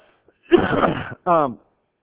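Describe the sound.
A man clears his throat during a Bible talk: a rough, rasping burst of over half a second, followed by a short voiced grunt.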